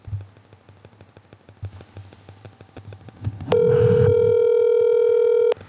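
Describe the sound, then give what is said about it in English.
An outgoing telephone call rings: after a stretch of soft, scattered clicks, one long, loud, steady electronic ring tone sounds for about two seconds and then cuts off. “Well, should we get him on the phone? I don't know if he'll answer. Let's give that a shot. Wait, see if he picks up and then do the whole recreation thing. Wouldn't be organic. We'll just let it ring on the pod.”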